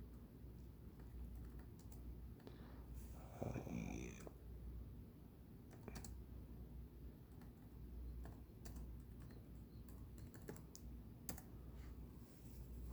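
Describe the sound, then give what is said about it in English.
Typing on a computer keyboard: soft key clicks in an uneven, stop-start pace, with a voice speaking briefly over them. “Actually, I got it. Maybe I can type it in.”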